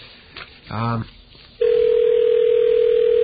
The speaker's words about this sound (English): So while we're listening to the rings of our brand new 5ESS